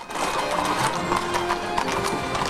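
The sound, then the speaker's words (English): Horse hooves clip-clop loudly and steadily as a dark horse-drawn carriage draws up. There are many quick hoof strikes throughout, with no voices. “a dark carriage draws up. A footman opens its door.”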